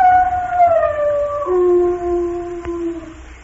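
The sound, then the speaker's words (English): A dog howls in a long, wavering tone that slides downward in pitch over several seconds. The howl is heard alone, with no talk. “Oh, me, what an awful howling and yowling.”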